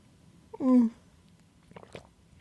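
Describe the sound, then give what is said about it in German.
A sip of coffee: one short, loud slurping draw, followed by a few faint clicks and soft mouth noises. “Zwischendurch einen Schluck Kaffee.”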